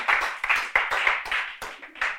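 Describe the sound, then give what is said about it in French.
A church audience claps during a French-language service, a brief burst of sharp, uneven hand claps with distinct strong strikes at a quick, irregular rhythm, moderately loud and without speech. “Est-ce qu'on peut applaudir l'amour de Dieu ce matin?”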